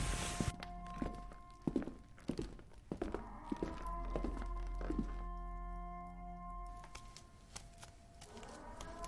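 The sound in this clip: Footsteps of a person walking, a series of uneven, soft thudding steps over a faint, steady low hum, with the steps thinning out toward the end.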